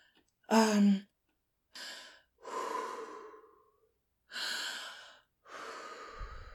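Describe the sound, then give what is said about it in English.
Deep breaths taken in and out: five breathy bursts separated by short silences. The first is shorter, sharper and partly voiced, and the later ones are longer, softer airy rushes. “Okay. Take a deep breath.”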